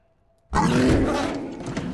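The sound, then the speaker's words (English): A mountain lion roars once. Silence gives way to a sudden, loud, rough roar that holds for about a second and a half and slowly eases off. “A mountain lion roars, and the man falls backwards onto the ground.”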